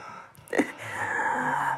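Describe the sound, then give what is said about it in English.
Deep breath from a person with asthma: a short, sharp gasping intake, then a drawn-out, raspy, wheezing breath with a whistling tone lasting over a second. “Deep breath. Except I have an asthmatic, so my shit just sounds like a horror movie.”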